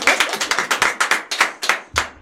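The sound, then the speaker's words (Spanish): Sharp, distinct handclaps from a small studio audience greet a guest on a Spanish entertainment show, coming as many crisp, fairly regular slaps with short gaps between them. “¡Dale un aplauso a Antonio!”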